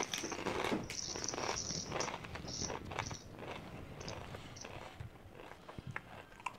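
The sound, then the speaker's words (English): Doritos tortilla chips being eaten: many crisp crunches and chewing sounds in an irregular rhythm, fairly faint throughout. “I'll just finish off my Doritos just while I'm here.”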